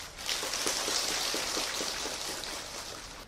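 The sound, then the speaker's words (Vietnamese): Heavy morning rain pours down in a continuous bright hiss, dotted with many faint, sharp patters of drops, steady from start to end with no voices. “trong một buổi sáng mưa tầm tã”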